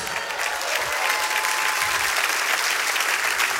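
Steady applause from an audience, a dense wash of clapping that holds at an even loudness from start to finish.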